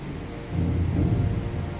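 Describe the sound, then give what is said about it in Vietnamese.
Heavy rain with thunder: a dense, steady hiss of downpour with a deep low rumble that swells after the first half second and carries on to the end. “Bây giờ mưa, các bạn có thể nghe tiếng mưa rồi, sấm sét cũng y ầm rồi.”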